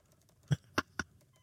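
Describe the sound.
Three faint computer keyboard keystrokes, irregularly spaced and soft, as someone types a message into a Teams channel.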